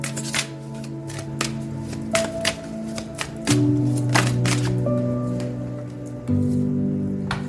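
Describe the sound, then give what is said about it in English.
Starlight oracle cards are shuffled in a quick run of crisp riffles and sharp taps, the busy card noise sitting over a soft, sustained musical tone. “Let's draw in some starlight oracles here. Calling in starlight oracle energies for the week ahead.”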